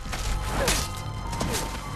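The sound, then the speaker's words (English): A black tree uprooting in a fantasy adventure film, heard as a dense rumbling crunch of wood with creaking and a few dull thumps, loud and alone. “A black tree uproots.”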